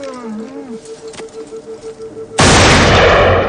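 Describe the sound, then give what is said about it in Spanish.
A single loud gunshot in a Western film, a farmer shooting a steer, cracks out abruptly after a quiet stretch of soft tones, its blast decaying over the following second. “el hombre de ojos claros se gira mirando hacia el lugar de donde proviene el disparo.”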